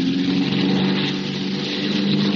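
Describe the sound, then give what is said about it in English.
A small airplane engine is revved over a darkened airfield, producing a loud, continuous throbbing drone with a strong low hum that holds steady for the whole clip. “Jazz the motor”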